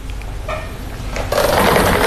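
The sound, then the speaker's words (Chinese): A lottery drawing machine starts spinning numbered balls for a Jiangsu seven-digit sports lottery draw. A low, rattling whir swells partway through into a louder, dense churning noise that continues to the end. “那此刻将正式开启本期江苏体彩七位数直播摇奖，请工作人员启动摇奖机。”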